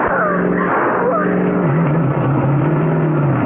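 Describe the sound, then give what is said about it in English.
A car engine drones as the car drives fast straight across lawns and fields. It is a loud, continuous roar whose pitch wavers and shifts as the car speeds along. “I'll take the wheel. You two hold on now. All right, here goes. Cutting straight across the lawns and fields. Let's hope the tires hold.”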